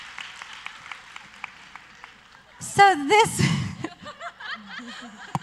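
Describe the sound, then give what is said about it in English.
Brief audience applause at a live stand-up comedy show: a short burst of clapping mixed with laughter and cheering, set between stretches of a single talking voice. “Let's give them a hand.”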